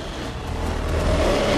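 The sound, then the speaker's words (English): A small truck approaches along a jungle track, its engine a low, rumbling hum that grows gradually louder over the short stretch, with no voices. “Greg gets to his feet as a small truck approaches.”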